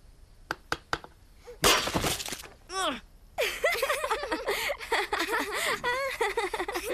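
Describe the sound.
A shell being broken open: a few sharp taps, then a loud burst of cracking and crunching, followed by high, excited voices and squeals.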